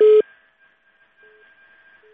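A telephone line cutting off: one short, loud tone opens, then two faint, evenly pitched beeps follow after a pause, like a busy or dial signal on an otherwise quiet line.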